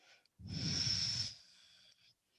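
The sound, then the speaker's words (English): A long breath out during a yoga flow: one strong, airy exhalation with a whistling hiss that lasts about a second and then fades, with softer breaths just before and after. “We'll breathe in and breathe all the way out.”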